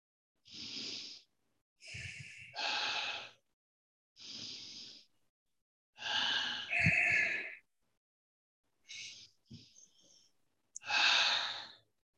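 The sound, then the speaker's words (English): Several quiet deep breaths, slow inhales and exhales in separate puffs with silent pauses between them, soft and airy with no talking. “close your eyes for a few seconds and take about 3 deep breaths”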